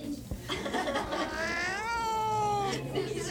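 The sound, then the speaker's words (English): A cat meows once in a long, drawn-out call that rises in pitch and then holds steady before breaking off, rich in harmonics and fairly loud above low background noise. “The cat's trying to crawl out the window.”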